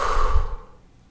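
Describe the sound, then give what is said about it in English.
A deep breath, taken during a guided breathing exercise, ends in a soft, breathy exhale that fades away over about a second. No speech is heard. “Take a deep inhale, fill up. Exhale, let it go.”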